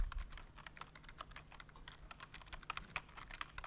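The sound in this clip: Faint, rapid typing on a computer keyboard as letters are entered while coding, with many quick, irregular key clicks running steadily throughout and no talking.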